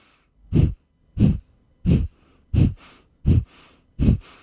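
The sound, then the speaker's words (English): A breathing exercise of forceful, conscious exhales and passive, gentle inhales: six loud, breathy exhale bursts at a steady rhythm, each followed by a much fainter, softer inhale. “So you can hear the exhale is much louder because that's a little bit more conscious and forceful. And the inhale is more passive and gentle”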